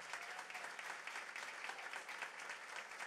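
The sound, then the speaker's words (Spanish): Faint applause at a formal provincial government ceremony attended by the governor and the government notary. Dense, even clapping holds at a low level throughout without a clear peak. “este es nuestro aplauso.”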